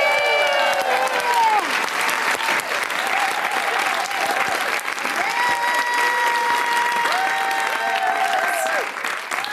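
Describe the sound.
A crowd gives warm, sustained applause welcoming an opera singer as a guest. The clapping is loud and even throughout, with crowd noise blended in.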